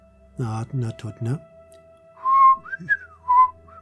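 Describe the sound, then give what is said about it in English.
A person whistles to a bird in a few short, soft notes that slide up and down. A brief voice comes just before, and a faint steady hum runs underneath. “Just starts whistling at it. The bird.”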